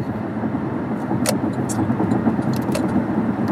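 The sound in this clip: Steady rumble of a car's engine and road noise as it drives through traffic, holding an even level throughout, with a few brief, faint higher ticks and no talking.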